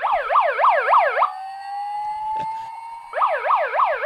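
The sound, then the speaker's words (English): A toy soundboard plays an electronic siren: a fast, rapidly repeating up-down whoop that breaks into a steady, slowly rising tone for a couple of seconds, then resumes the whooping. Loud, with no talk. “When you said no deal, that was my siren to say I disagree.”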